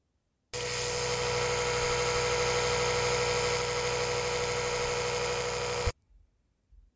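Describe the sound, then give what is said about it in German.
An electric toothbrush buzzes in a steady, even drone for about five seconds and then cuts off abruptly, leaving only a couple of faint knocks afterward. “Die Zahnbürste.”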